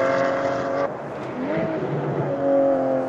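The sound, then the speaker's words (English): A Porsche Cayman race car, number 462, passes during a VLN endurance race. Its engine gives a loud, steady buzzing drone, and the engine tones shift in pitch as it goes by. “As I say, it should be the number 4 Porsche that we see first. There's the 462 Cayman.”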